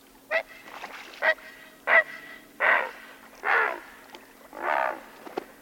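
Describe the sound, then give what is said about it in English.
A great blue heron gives six harsh, hoarse croaking squawks at uneven intervals, the later calls longer and drawn out, over a faint steady background hum. “That's a great blue heron.”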